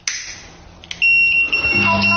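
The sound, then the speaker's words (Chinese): Smart home gas leak alarm, set off when gas escapes after boiling water puts out a stove flame, sounding as a loud, steady, high electronic tone that begins about a second in after a brief quieter stretch. “这时候呢，我们的燃气会报警”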